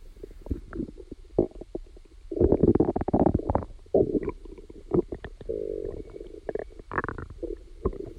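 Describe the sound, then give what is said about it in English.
Human digestive sounds, recorded from inside the body: irregular gurgles, squelchy bubbling pops and low churning rumbles, rising to a louder, busier stretch in the middle before settling into intermittent gurgling, with no voices. “you even recorded digestive sounds. Maybe we can listen also into that.”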